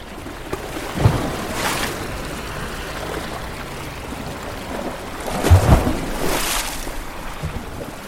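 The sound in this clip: Sea waves wash in at the Cercle des Nageurs swimming club by the sea in Marseille. A soft, steady rush swells into two louder surges, with no voices.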